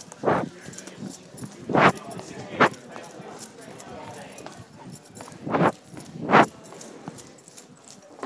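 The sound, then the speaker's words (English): Footsteps of someone running down stairs to a ground floor past a group of people: a few heavy, irregularly spaced thumps stand out over a low, steady background. “I'm now running down the stairs into the ground floor, past all these people.”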